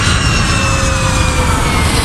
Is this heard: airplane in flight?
yes